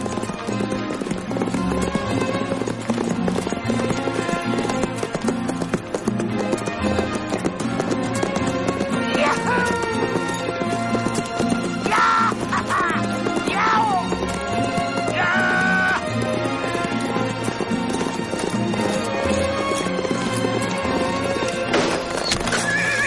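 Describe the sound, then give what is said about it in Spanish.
A horse gallops at full speed in a Western chase until it collapses, with continuous pounding hoofbeats and several loud whinnies rising above a dense, unbroken wash of sound. “James galopa a toda velocidad hasta que el caballo no puede más y se cae al suelo”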